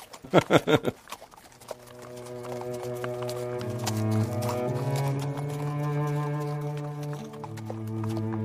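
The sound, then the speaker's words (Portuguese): Hooves clip-clop steadily as horses travel, with many quick, light hoofbeats over a low, sustained musical drone that swells and shifts pitch. “Vocês vão a cavalo, né?”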